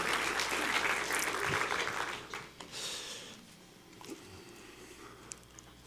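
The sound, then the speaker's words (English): Audience applause at a Christmas morning gathering as a guest comes to the stage. Loud, dense clapping comes first, then fades after about two seconds into scattered, faint claps and low murmuring. “You guys can give her a hand as she makes her way.”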